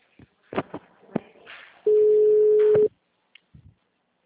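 After a dropped call, a single loud, steady telephone tone holds for about a second, with handling clicks and faint rustling before and after it.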